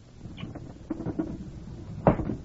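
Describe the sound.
A window is pushed open wider: a few soft knocks and rubs, then one louder clunk near the end, with a short rattle after it.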